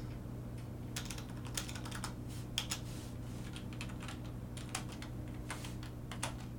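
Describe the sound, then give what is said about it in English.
Typing on a computer keyboard: many faint, irregular key clicks over a steady low hum, with no talk. “Dude, I cannot type right now.”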